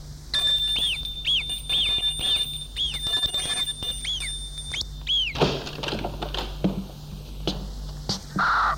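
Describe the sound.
A doorbell rings at the door of a grand family house as a visitor arrives. A quick run of high, chirping ring tones repeats for several seconds, followed by a few rustles and soft thuds.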